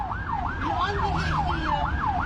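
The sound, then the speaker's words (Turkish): An ambulance siren sounds on the road while a car blocks its way and will not yield. It makes a loud, quick, repeating rise-and-fall wail over several even cycles, with low traffic rumble beneath. “Korna, siren ve anonsların ardı arkası kesilmedi.”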